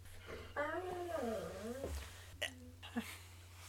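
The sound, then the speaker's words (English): A female dog whimpering and crying, heard faintly: a long, wavering, high whine rising and falling in pitch, followed by a few short sharp sounds. “Listen, if you can hear our dog in the background, I apologize. And if you can't, then just know that she is crying right now”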